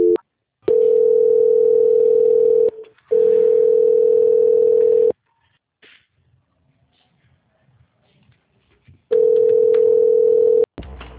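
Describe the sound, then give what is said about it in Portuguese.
Telephone line tone during a call transfer: three long, steady, even-pitched tones, with a short break after the first and a longer silent gap before the third. “só um minuto, por favor, que eu vou transferir a sua ligação.”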